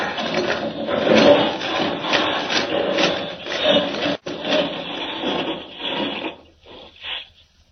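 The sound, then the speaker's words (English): A vehicle boring through solid rock in a radio-drama mine, rendered as a loud, continuous grinding rasp with a churning scrape that holds steady, then breaks into a few shorter bursts as it fades near the end. “No time to find the entrance. I'll just drive straight to it through the solid rock. Here goes!”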